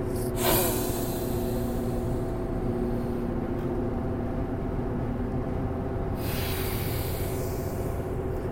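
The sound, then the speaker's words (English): Heavy, forceful breathing during a breathing exercise: a loud, continuous rush of air that barely pauses throughout, with one sharper gasp-like burst near the start. “All right, let's go. Breath number 2, go.”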